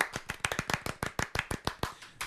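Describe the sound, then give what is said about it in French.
Seated audience clapping, a short burst of brisk, slightly uneven claps from a few people, fairly faint. “on fait souvent des sitting ovations comme ça. Ah, c'est bon. On est trop chien de se lever pour applaudir. Sitting ovation.”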